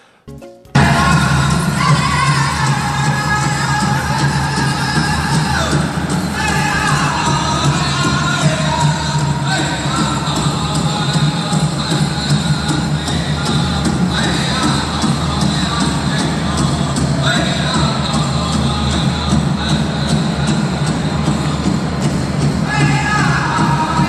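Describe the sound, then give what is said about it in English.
Crowd sound from a Native American workshop at the U.S. Social Forum: a continuous, dense wash of many overlapping voices and activity that stays at a steady level throughout after a brief quiet start. “And just some of the sounds of the U.S. Social Forum there.”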